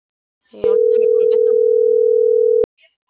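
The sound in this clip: A telephone tone on a call that goes unanswered: one long, unbroken beep lasting about two seconds, with brief talk just before it.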